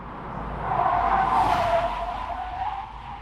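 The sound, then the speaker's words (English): A car screeches through a U-turn with a single sustained tire squeal that swells to a loud, harsh peak midway and then gradually fades, all alone with no voices. “I downloaded those sound effects from the excellent website Freesound. And have you noticed, Simon, that over the course of a week, the screeching U-turn has now become a devastating or humiliating one”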